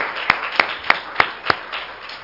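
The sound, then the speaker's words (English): Hand claps of praise from a church audience during worship: five sharp, evenly spaced claps in a steady rhythm, followed by a fading tail. “Let's all give the Lord a hand clap of praise.”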